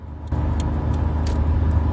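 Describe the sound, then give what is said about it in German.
A car cruises along the A9 motorway in Germany toward Munich. Its engine and tires make a steady low rumble with a broad hiss, and a few faint, higher ticks show up on top. “So, wir wechseln jetzt gerade bei einem Autobahn. Na, wir fahren weiter auf der A9”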